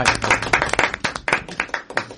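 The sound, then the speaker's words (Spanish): Applause for a guest at a festival event in Galicia, a crowd clapping in quick, uneven bursts of many sharp hand claps, loud and continuous throughout with no voices over it. “Vamos a aplaudir.”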